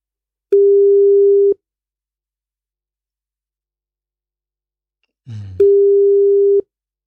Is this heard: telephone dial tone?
yes